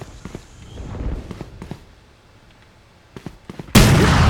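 A grenade explosion in a video game bursts in loudly near the end and keeps roaring to the close. Before it come quieter footsteps and a few sharp clicks and thuds.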